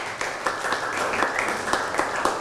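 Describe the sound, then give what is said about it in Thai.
A class of students applauds their classmates, a fairly steady patter of many hands clapping with a few louder claps standing out over two seconds. “พระบรมธาตุชัยยาเอาปรบมือให้เพื่อนหน่อยครับ”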